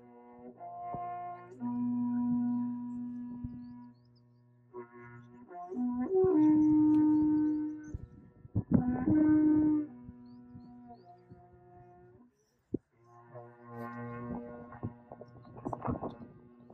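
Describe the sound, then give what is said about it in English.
A replica of a large ancient horn being sounded: several long, low droning blasts rich in overtones, each held for a few seconds with short pauses between, the tone wavering slightly as it is blown. “But his belief is that this large horn that he has a replica of would have been played with at least one other, possibly multiples, as the voice of the gods at sacred moments sounding this.”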